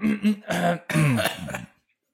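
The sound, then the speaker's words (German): A person clears their throat with a few rough, voiced rasps and grunting bursts in quick succession, fairly loud and close, then falls silent. “Jetzt muss ich mich nochmal räuspern.”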